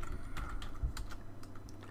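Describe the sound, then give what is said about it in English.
Typing on a computer keyboard, done awkwardly while reaching around a microphone: faint, irregular soft key clicks at a quick pace with slight variation in loudness, heard alone. “it's hard to type. I've got the microphone. I have to reach around the microphone”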